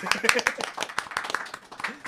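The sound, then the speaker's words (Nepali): An audience claps for a guest on a Nepali talk show, a quick run of crisp, uneven hand claps of moderate loudness that continues for a couple of seconds. “Tali”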